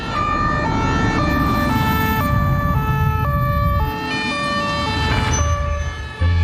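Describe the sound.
A police siren wails loudly and steadily in a two-tone pattern, alternating high and low, over a low rumble of road traffic.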